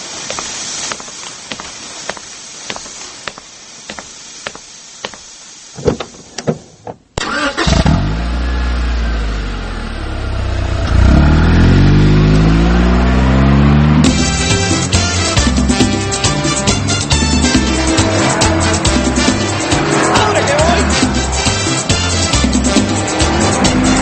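A car engine starts after a run of sharp mechanical clicks, then roars and revs loudly as the car accelerates and drives off, with the steady engine noise continuing to the end.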